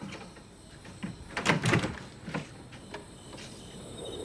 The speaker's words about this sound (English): then opens his front door.